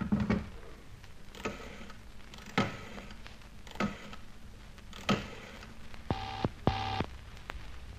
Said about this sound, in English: All right. Dial it. Here we go.